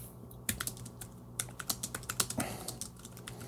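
Typing on a computer keyboard: faint, irregular keystroke clicks, a few isolated taps and then a quicker run of many presses, heard alone without voices.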